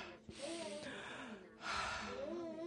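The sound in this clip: Two deep, breathy mouth breaths, one in and one out, are taken as a breathing exercise. Each is a soft, airy rush of a fraction of a second, heard over quiet background music.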